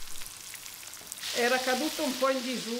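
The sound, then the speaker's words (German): Breaded fish frying in a pan gives a steady hissing sizzle. It swells in after a quiet first second and keeps going loudly to the end. “Der panierte Fisch wird angebraten.”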